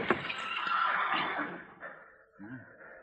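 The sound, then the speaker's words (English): A saddled horse with a bedroll tied behind, standing tied at a corner in the Old West, lets out a long breathy whinny that sinks slightly in pitch, followed by a short lower snort. “There's a horse tied there at the corner. Yeah. All saddled up.”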